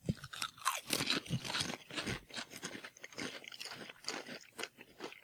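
Crunchy chewing and biting as someone eats food while tasting it, with many irregular bites in quick succession and no talk.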